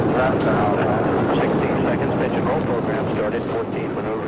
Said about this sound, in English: Launch commit. Liftoff. We have liftoff with Apollo 14.